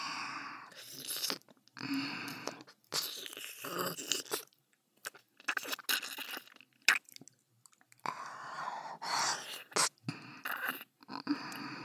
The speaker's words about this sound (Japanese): こうして舐めさせていただきます。